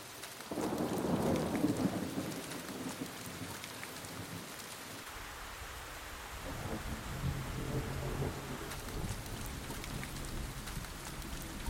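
Heavy rain pours in a tropical rainforest thunderstorm, a dense, steady hiss of drops, with a deep rumble of thunder swelling near the start and slowly fading under the downpour.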